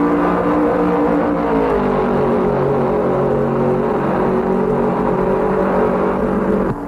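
A race car at full throttle on the final lap gives a loud, sustained whining drone with steady harmonics. Its pitch dips slightly near two seconds, then holds level until a brief drop at the very end.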